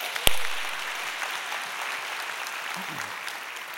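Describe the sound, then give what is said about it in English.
A church audience applauds to welcome guests, starting with one sharp clap before settling into steady, even clapping from many hands that continues throughout. “If you're a part of the Bridge family, would you put your hands together and let's welcome all of our guests today.”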